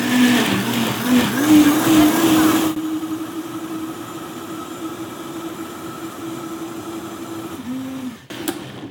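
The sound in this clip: A variable-speed blender running at high speed, mixing ingredients: a steady, humming motor drone that wavers in pitch early on, drops somewhat in loudness, then runs evenly before cutting off near the end.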